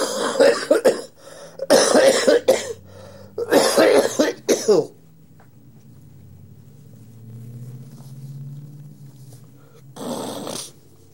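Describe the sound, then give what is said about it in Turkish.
Several harsh coughs in a fast cluster of bursts, each loud and breathy, then a quieter stretch with a low hum before one final, weaker cough near the end. “öyleyse öksürük cümlenin tamamlanmasına engel olabilir”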